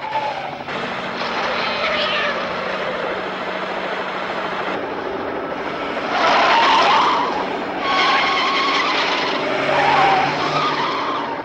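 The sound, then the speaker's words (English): A van's tires screech loudly around a steep, winding mountain road in one long sustained squeal, with two louder surges of skidding in the second half. “Back on the road, the van screeches around the steep, winding mountain path.”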